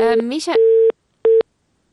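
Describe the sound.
Telephone line tone after a dropped call on a phone-in: a brief burst of voice, then two steady beeps at one pitch, the first longer, separated by silence.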